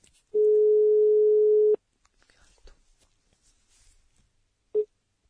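A telephone tone sounds as a call is placed to a couple: one steady, even-pitched tone that holds for over a second and stops abruptly. Faint rustling follows, then a single short beep.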